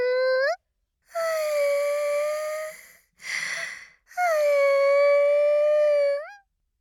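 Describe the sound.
A woman's fake crying: long, high, wavering wailing sobs with a broken, breathy gasp between them, a few cries in all, loud and with no other sound.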